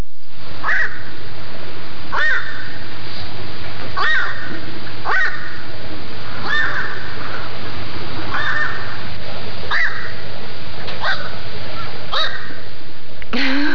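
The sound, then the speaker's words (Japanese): Hoarse, crow-like squawks of a black-crowned night heron, the bird nicknamed night crow, repeat many times at a fairly steady pace over a faint, constant low hum. “夜のカラス、つまりヨガラスって呼ばれてたっていうことなんですけど。 カラスに似てるんですか。 うん、まあ、本当に似てるかどうかちょっと録音聞いてみたいと思うんですけれども。”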